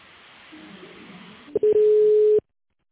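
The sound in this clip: A steady low telephone line tone holds for under a second, preceded by a couple of sharp clicks over faint line hiss, as a call is being transferred, with no one talking.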